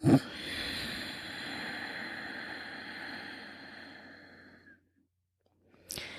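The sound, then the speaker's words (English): A slow breath drawn and let out through the nose with the back of the throat gently contracted: a long, steady, soft hissing rush that fades into silence before the next breath starts at the end. “Inhale through the nose while gently contracting the back of your throat. And exhale slowly through the nose while keeping that throat contracted.”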